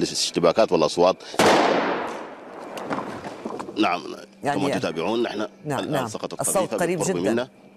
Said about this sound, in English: Once we step outside, we're not sure who exactly is shooting at us, but we do feel that they know we're here and they're not happy about it.